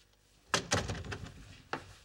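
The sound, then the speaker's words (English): A house door shuts with a heavy thump, then a second knock and a later rattling bump. These are a few solid, low impacts with a short resonant tail and no speech over them. “Close the damn door.”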